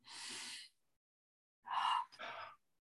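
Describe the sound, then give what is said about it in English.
A deep breath is drawn during a spoken affirmation session, heard as faint airy rushes: one smooth burst, a pause, then a longer breathy burst with a brief break partway through. “Nice breath in.”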